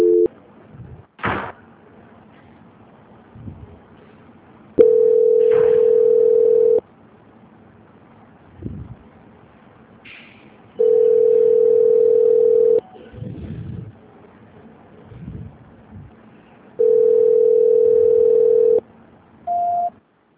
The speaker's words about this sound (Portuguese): Peraí que voltou a ligação de novo, peraí. Ah, tá voltando? Tá voltando que ninguém tá atendendo, só um minutinho. Ah, tá joia. Transferência.